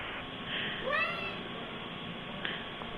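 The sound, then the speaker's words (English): A single cat meow, a short tone rising in pitch, sounds faintly over a steady background hiss. “Is there a cat? Who's... Did you hear that? Oh, my God. I'm hearing a cat.”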